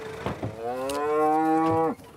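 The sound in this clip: A Charolais mother cow gives one long, loud moo in a herd awaiting their calves. The moo holds a steady, rich tone before dropping off abruptly, preceded by a few short grunting sounds.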